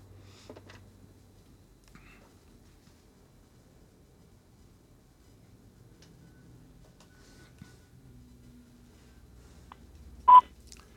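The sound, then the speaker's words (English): A single short, loud telephone tone sounds as a caller dials in, standing out after several seconds of near silence with only a faint low hum. “I think someone's dialing in.”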